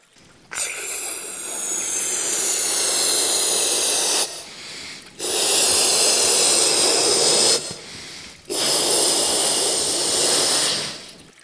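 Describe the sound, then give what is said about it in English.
Breath is blown forcefully into an inflatable toy in three long, hissing blows. Each lasts a few seconds, with short pauses between them. The blows are airy and fairly loud, with no talking. “But I think if I blow a bit more, you could take better shape. What do you think? I think I could bend and twist and blow.”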